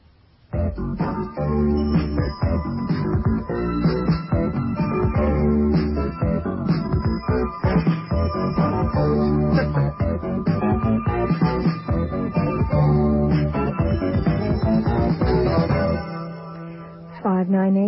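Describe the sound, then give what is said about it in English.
A radio station stinger, the short musical interlude CKLN plays during its Newswave shows, runs as loud, dense, continuous music with a steady rhythm before thinning out and fading near the end. “What you just heard was what we call a stinger, a musical interlude we use during our shows here at CKLN on Newswave.”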